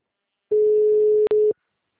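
A telephone dial tone sounds while a call is being placed. A steady, mid-pitched tone holds for about a second, broken by a brief click just before it ends.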